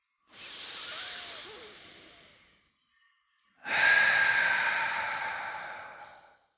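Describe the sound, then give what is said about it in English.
A deep breath in, then out: two long airy rushes of breath separated by a short silence, each swelling and then tapering away, fairly loud, alone and with no talk. “So go on. Breathe. Like this.”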